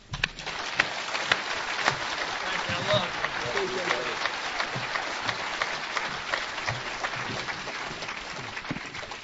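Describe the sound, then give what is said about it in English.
A crowd at a recovery meeting gives a warm round of applause to welcome a speaker, steady and fairly soft, with even, continuous clapping for several seconds. “Let's give a big oceanfront round of welcome to Bill C.”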